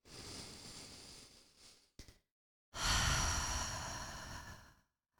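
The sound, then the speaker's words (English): A slow, deep breath is drawn in as a soft, airy inhale. After a short pause, it is released as a long, breathy exhale, all quiet and alone. “And so I'm just going to invite everybody to take a big, deep breath right now.”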